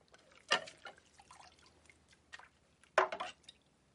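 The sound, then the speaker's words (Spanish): Dishes being washed at a kitchen sink: faint trickles and splashes of water with a few sharper clinks, two louder splashing bursts standing out from the quiet background. “Anne está de pie, fregando los platos.”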